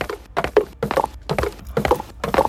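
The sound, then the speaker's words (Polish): A horse gallops: a loud, steady run of repeated clusters of thudding hoofbeats, each group separated by a short gap, with no voices. “Słuchaliśmy fragmentu końskiego galopu”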